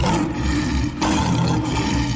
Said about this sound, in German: Und deshalb lassen wir den Safariland-Löwen heute hier nochmal von alleine. Hört ihr ihn in der Morningshow brüllen?